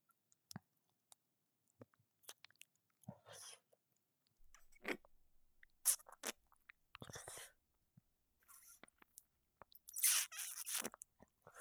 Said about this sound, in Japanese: で、舐めるよ。